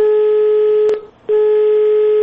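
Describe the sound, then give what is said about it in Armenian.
Telephone line tone during a call dialed live on air: a loud, steady, buzzy tone that breaks off briefly near the middle, then resumes unchanged. “Հիմա փորձենք հենց ուղիղ եթերում զանգահարել”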